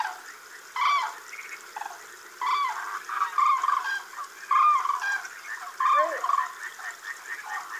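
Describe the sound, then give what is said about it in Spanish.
Trumpeting calls of a flock of common cranes flying high, coming in several loud, harmonic bursts over a steady low background. “Una bandada de grullas vuela alto. Van ya retrasadas en busca de un lugar para dormir.”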